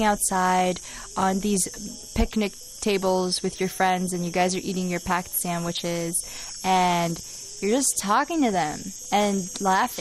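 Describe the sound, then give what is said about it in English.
Cicadas buzzing outdoors in late summer, a steady high-pitched drone running continuously beneath a person talking at length. “You guys want to listen to us with the cicada in the background? With the cicadas. Do you feel poetic hearing cicada sounds in the background?”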